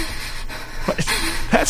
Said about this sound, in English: That's not how you huff. That's just some gratuitous woman panting.